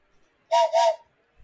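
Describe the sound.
A steam train whistle on the Disneyland Railroad, blown by the engineer in two quick back-to-back hissing blasts with a steady tone, stuttering like a little laugh, between near silence.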